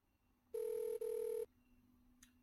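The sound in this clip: A telephone rings with a steady mid-pitched electronic tone in two short back-to-back bursts separated by a tiny gap, heard alone before quiet returns.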